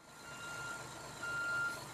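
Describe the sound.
A truck's reversing beeper sounds as a high electronic tone, a brief blip and then one longer beep, over a faint low engine rumble.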